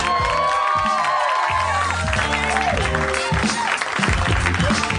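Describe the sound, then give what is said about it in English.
Audience applause and cheering fill a live show as a host introduces the evening's headliner. The steady clapping and whoops run loud under his amplified voice. “Welcome once again, Harmonians, Harmonites. Put your hands together for the mayor of Harmontown, Mr. Dan Harmon.”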